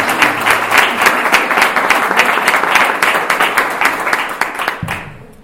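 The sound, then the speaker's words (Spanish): An audience applauds at a public event for a community adult-education centre, clapping for its director. The clapping stays dense and loud throughout, then thins out and tails off near the end. “donde yo pediría un aplauso”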